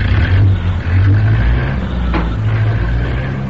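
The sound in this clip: A car tearing away from a gas station, its engine roaring loud and steady with a deep, low rumble and revving under it for the whole stretch.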